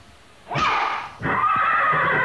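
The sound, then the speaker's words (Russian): A horse neighing loudly twice, a shorter whinny followed by a longer, sustained one, as the horse rears up and gallops back to its stable. “Лошадь взвивается на дыбы и полным карьером несется назад в конюшню.”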